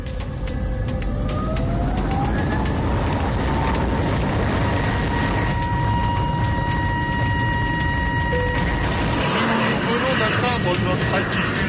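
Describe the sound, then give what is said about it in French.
An airplane taking off: a loud, continuous engine roar with whining tones that climb in pitch as the engines spool up, steady to the end. “Le temps du décollage, je vous demande d'attacher votre ceinture. Un petit point météo. Le ciel est clair, la visibilité est bonne, le vent est nul. Paré pour le décollage.”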